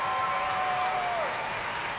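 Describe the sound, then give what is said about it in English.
Cheering and applause from the audience at a BBC Prom concert as the conductor of the BBC Symphony Orchestra returns to the podium: a steady, even wash of clapping that does not let up. “And as he's back on the podium taking the cheers once more for the BBC Symphony Orchestra”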